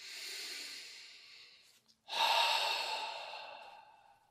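Breathing during a relaxation exercise: two long, airy breaths separated by a brief pause, the second one louder and slowly fading out, with no talking.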